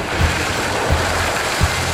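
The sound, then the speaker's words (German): Water splashes as a small bucket of it is poured, making a broad, rushing wash that runs for about two seconds with a few soft, low thumps beneath it. “da gibt's auch noch einen kleinen Eimer Wasser dazu. Wir springen gemeinsam ins Wasser”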